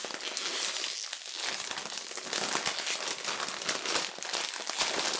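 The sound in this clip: A bag of new-flavor chips is ripped open. Loud, continuous crinkling and crumpling of the plastic bag lasts about five seconds, with dense crackly rustles and no speech.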